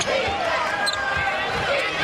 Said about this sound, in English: Kelly with the hip-high left-hand dribble.